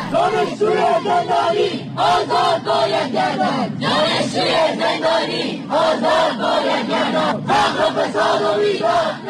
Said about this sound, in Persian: این صدای دانشجویانی است که در اعتراضات سراسری مردم علیه حکومت جمهوری اسلامی در صف اول معترضان قرار گرفتند.